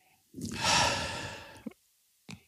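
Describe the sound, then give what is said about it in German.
A person gives a loud, long breathy exhale while nosing a pale spirit in a glass. Two short, faint puffs of breath follow after a pause. “Das war mal ein ordentliches Ausatmen.”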